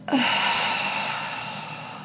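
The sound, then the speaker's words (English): A deep breath during a guided relaxation exercise: one abrupt, airy onset that softens into a long, gradually fading breath over about two seconds, with a faint sustained tone underneath and no voices. “Let's take a few deeply expansive breaths together. So breathe in and out.”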